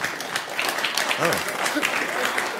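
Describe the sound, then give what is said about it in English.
Audience applause, a steady even patter of clapping throughout, with a voice briefly speaking over it partway through. “Look how easy it is to get them to applaud.”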